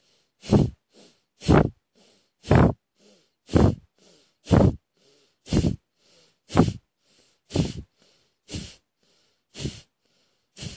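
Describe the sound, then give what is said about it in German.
Forceful pulsed exhalations during a pelvic floor breathing exercise: many sharp, breathy puffs in a steady, regular rhythm, with softer breaths between them. “Und beim Ausatmen, bei diesem stoßweise Ausatmen, den Bauch einziehen und der Beckenboden ist nochmal ein bisschen mehr in Aktion.”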